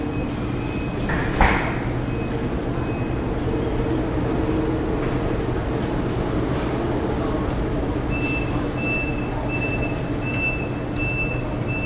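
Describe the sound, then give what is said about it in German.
A train leaves a platform at Hannover main station. A steady broad rumble runs throughout, with a single thump early on and a repeating high beeping tone starting about two-thirds through. “Ihr Zug wird jetzt fahren.”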